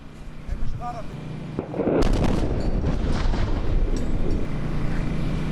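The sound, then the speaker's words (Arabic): A heavy airstrike explosion hits the town of Mansouri in the Tyre district of southern Lebanon. A sudden, loud blast breaks a quieter opening and gives way to a sustained, roaring rumble that lasts to the end. “غارة على الهواء يا جماعة، غارة.”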